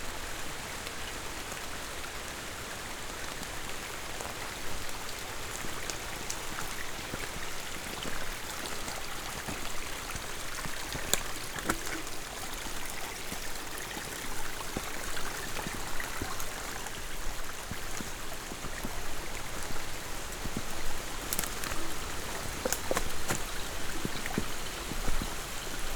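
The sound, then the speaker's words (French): Light, intermittent rain showers falling in a humid tropical rainforest: a steady, dense patter of drops with a few slightly sharper splashes scattered through it, moderately loud and with no voices. “C'est des petites ondées par intermittence. C'est très intéressant au niveau du son.”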